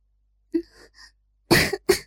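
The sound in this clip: A woman coughs lightly twice with a hoarse edge, two short, fairly loud coughs after a few faint breathy sounds.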